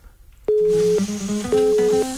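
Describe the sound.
Telephone dialling tones as a call is placed live on air: two long steady electronic beeps, each followed by lower stepping tones, loud and alone.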